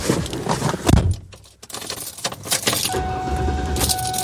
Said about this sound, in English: Let's start her up and see what it sounds like.